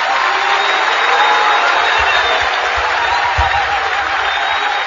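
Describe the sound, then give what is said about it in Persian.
An audience claps in steady, dense applause that holds at an even, fairly loud level for the whole clip, with no clear break or peak. “حالا این دست رو بیار بالا، اون کفی که تا حالا نزدی رو”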